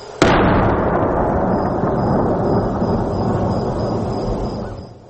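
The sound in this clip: A large artillery cannon fires a single sharp, loud boom, followed by a long, deep rolling rumble that fades slowly over several seconds, with no voices.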